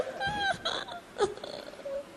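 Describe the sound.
A woman cries in faint, whimpering sobs, with several short wavering vocal bursts broken by gasping breaths.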